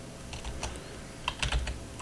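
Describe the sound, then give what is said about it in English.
Keys tap on a computer keyboard while a search is typed, faint scattered keystrokes with a denser cluster near the end over a low steady hum. “Uh, that's not how you spell that. God damn it. Uh, okay, I should not type after drinking.”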